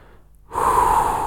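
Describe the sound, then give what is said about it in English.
A single deep breath is taken during a guided relaxation breathing exercise. After a short near-silence it begins as a sudden airy rush and continues steadily to the end. “taking a few cycles of this very deep inhalation and an even more full”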